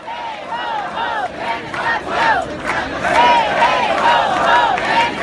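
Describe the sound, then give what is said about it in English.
A crowd at street protests against the president-elect chants in unison, loud shouted phrases that repeat in a steady rhythm and build slightly toward the end. “So some sound there from protests.”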